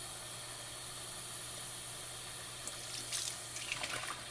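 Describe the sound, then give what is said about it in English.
Tap water runs into a sink while soap is rinsed out of a bottle, making a faint, steady hiss. A few soft clatters of handling show near the end. “this way I can wash one. I have a little too much soap in one of these. It's like taking forever to get all the soap out.”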